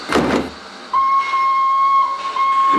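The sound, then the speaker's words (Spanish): A steam train whistles as it departs from a station platform. After a brief burst of noise, a sustained, high, steady whistle tone holds for about two seconds over a hiss. “El tren parte.”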